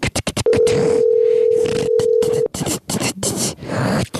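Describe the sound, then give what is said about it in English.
A telephone line tone sounds while a call to a father is placed, holding steady for about two seconds amid loud rustling, scratchy bursts that continue after it stops. “All right, so let's call my dad.”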